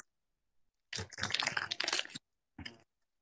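Chewing a tofu snack: a dense burst of crackly crunching lasting just over a second, then a brief pause and one shorter crunch, with silence around it.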